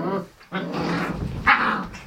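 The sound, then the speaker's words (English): Dogs growl during a dog fight, a continuous rough, throaty snarling that stays loud throughout with sharper rises in intensity. “Would you please get them out of here? Thank you. We're having a dog fight.”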